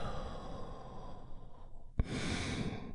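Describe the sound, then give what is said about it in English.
A deep breath drawn in and slowly released during a guided relaxation exercise: a long, soft, airy rush of breath, then a brief catch followed by a fuller, louder exhale at the end, with no voices. “We are going to start the moment by taking a big, deep healing breath right now. Here we go. And release.”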